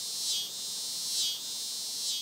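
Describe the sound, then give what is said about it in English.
A cicada calls with a faint, high, steady buzzing drone that swells and fades in three regular pulses. “it may sound like a bit of a cacophony to us, but, you know, it's sweet music to a female cicada”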